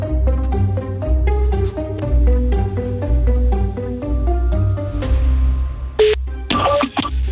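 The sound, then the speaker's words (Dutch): Keypad tones of a telephone number being dialed: a rapid, even series of many short beeps, ending in a brief different tone and a few clicks. “Even, ik ga Niels even bellen, wacht.”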